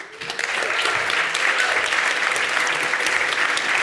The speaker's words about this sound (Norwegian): Var næringslivet like raske til å applaudere som I går?